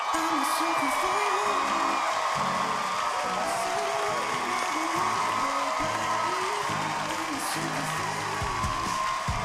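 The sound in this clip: Audience applause mixed with whoops and cheers at a comedy roast as three brothers are welcomed on stage, a dense, steady wall of clapping and shouting that stays loud throughout, with voices calling out over it.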